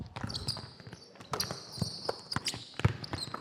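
Faint, irregular thumps of a basketball being dribbled on a court during a coaching drill, with several scattered bounces at uneven spacing.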